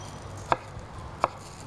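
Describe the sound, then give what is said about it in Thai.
A knife cuts through cucumber on a board, slicing it into sticks: two sharp, distinct chops fall well apart against a quiet background. “เราก็หั่นแตงกวาเราจะหั่นที่มีลักษณะเป็นแท่งๆเหมือนกันนะคะเพื่อจะได้ห่อได้ง่ายขึ้นนะคะ”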